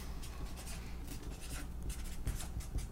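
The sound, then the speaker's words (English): Pen or pencil scratching as something is written down: a steady run of quick, scratchy strokes throughout, fairly quiet, with no talking. “We gotta write that down.”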